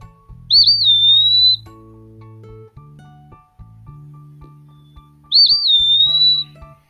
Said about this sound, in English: they were eastern wood pewees. And I was quite surprised to see that, but pleasantly so. And this is what they sound like.